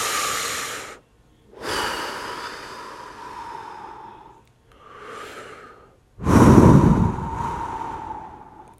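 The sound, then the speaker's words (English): Deep, slow breathing, with four long, loud breaths in a row, each airy and rushing, separated by brief silent gaps and heard alone without talk. “Listen to your breath, you know, feel your breath”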